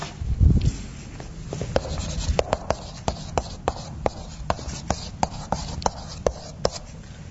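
Someone writes by hand, giving many crisp scratching ticks at a fairly steady pace, with a low thump near the start.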